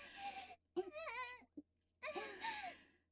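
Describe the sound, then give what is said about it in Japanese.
Sheep bleating, faint and alone: three wavering, nasal cries with a brief bleep between the second and third, the pitch quivering throughout each call. “さてさて、羊さんも混ざりたいですか？”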